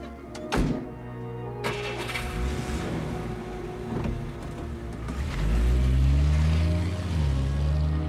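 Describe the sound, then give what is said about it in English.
A car drives off: a few heavy thunks, like doors shutting, are followed by a low engine rumble. The rumble swells and holds steady toward the end, with no talking. “gets in the car and drives off.”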